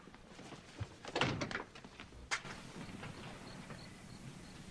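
A door being shut quickly behind someone leaving: a couple of dull wooden thuds, the second short and sharper, then a low, quiet hum with no talk.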